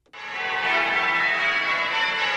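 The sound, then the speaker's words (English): Church bells of Spitalfields in East London ring out together after a sudden start, forming a loud, sustained, shimmering wash of overlapping metallic tones with no talking. “The bells of Christchurch Spitalfields in East London.”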